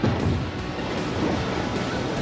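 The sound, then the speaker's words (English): A free-fall lifeboat slams into the water at about 6 G, producing a loud, broad roar of churning, splashing water that holds steady for the whole moment without any distinct separate impacts. “When the boat free falls, it hits the water with a force of 6 G's. That's more G's than you feel on a roller coaster. Bombs away!”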